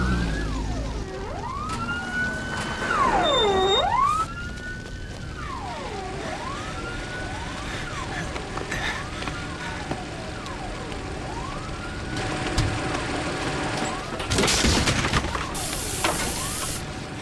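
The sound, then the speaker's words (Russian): Sirens of an ambulance and a fire engine arrive at a house, wailing loudly in repeated rising and falling sweeps that overlap throughout, with brief bursts of hissing noise near the end. “К дому приехала скорая и пожарная.”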